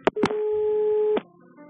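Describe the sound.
A telephone line tone sounds as a caller is put through on a call-in show: a couple of sharp clicks, then one steady, clear electronic tone held for about a second, cut off by another click.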